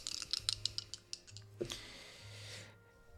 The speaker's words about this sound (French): Donc, je brasse mes dés.